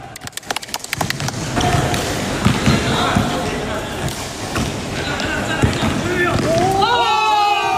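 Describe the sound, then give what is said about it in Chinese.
A basketball is dribbled during an evening game among young water-conservancy workers, opening with a quick run of sharp, regular bounces, then scattered thuds and shouts from players, with high squeaks near the end. “为了排解日常工作带来的压力，他常常组织同事一起打球，借此放松紧绷的神经。”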